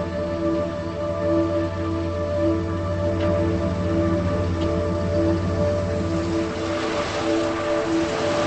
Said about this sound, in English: starts his car and slowly drives over to her.